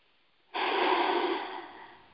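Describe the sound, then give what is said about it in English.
A single deep breath taken to ease stress: breathy airflow begins abruptly, holds steady, then slowly tapers away, alone without talk. “if I am feeling that, I stop and I take a breath.”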